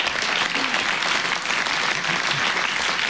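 A radio cabaret audience applauds a performer welcomed onto the stage, with thick, even clapping from many hands that holds steady throughout.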